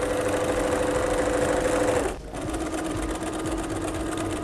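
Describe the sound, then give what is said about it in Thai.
Sewing machine stitching steadily along the folded seam line of a bag, a dense continuous whirring hum that stops briefly just before the midpoint, then resumes at a slightly lower level with no talk. “จากนั้นเราก็ค่อยๆพับแล้วก็เย็บไปตามรอยของแนวกระเป๋านะคะ”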